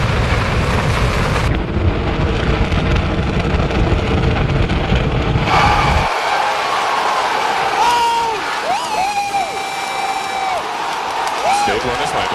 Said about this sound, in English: Mission sequence start and liftoff of the SpaceX Falcon 9 rocket. We have liftoff, Falcon 9.